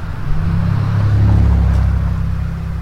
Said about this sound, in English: And getting squished by a whatever that car was.